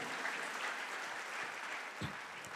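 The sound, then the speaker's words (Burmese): An audience clapping hands in praise of God during a Sunday afternoon church sermon. The patter of many hands is steady and moderately loud throughout, with a slightly stronger burst near the end. “လက်ခုပ်တီးလက်ဖခင်ကိုချီးမြှောက်ကြရအောင်”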